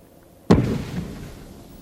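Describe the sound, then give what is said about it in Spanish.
A signal flare fired from a ship's bridge bursts with one sudden, loud bang, followed by a low rumbling tail that fades away over about a second. “Desde el puente sale otra bengala.”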